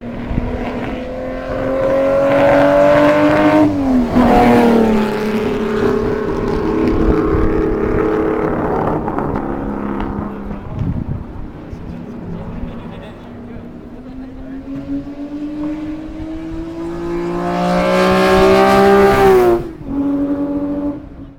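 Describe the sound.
Ferrari 250 LM racing car engine passing: a loud, sustained mechanical roar with harmonic tones that climb and sag with the revs, surging to its strongest near the end.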